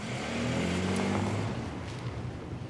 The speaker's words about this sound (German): Chef, geben Sie Gas.